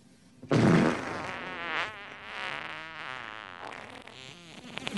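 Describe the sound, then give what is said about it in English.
A fart sound effect from a film comedy scene: a loud, low rasping blast bursts out after a short quiet start, then trails into a longer, wavering buzzy drone. “43 minutes and 55 seconds into Scary Movie 3, you get a nice fart.”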